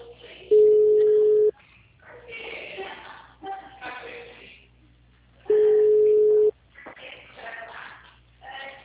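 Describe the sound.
Ringback tone while placing a phone call: two steady one-second tones at a single pitch about five seconds apart, with people talking in between.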